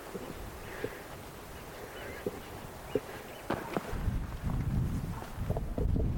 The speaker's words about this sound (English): A bit windy here